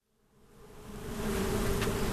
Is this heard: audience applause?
no